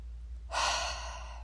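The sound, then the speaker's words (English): A single deep, slow breath: a steady airy rush begins partway through and holds to the end, moderately loud, over a faint low hum. “put your hand on your chest with me, and let's take a deep breath, okay?”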